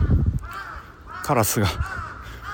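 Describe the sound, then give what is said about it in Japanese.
A crow caws a few times, harsh and loud, the calls clustered together with quieter stretches of background sound between them. “カラスが元気に鳴いてますね。”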